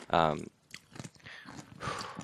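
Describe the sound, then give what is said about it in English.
Crunchy chewing of pickles, with a few crisp bites and mouth noises breaking up quiet moments after a short voiced hum at the start. “I gotta stop eating these pickles for a second.”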